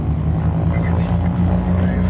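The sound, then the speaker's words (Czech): Aircraft engines run at takeoff, a loud, steady droning roar with a low, constant pitch and no pause across the moment. “Jsme na startu, motory kvílí.”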